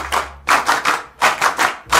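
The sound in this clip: An audience claps in unison in tight sets of three beats, the triple pattern repeated, loud and crisp with no voices over it.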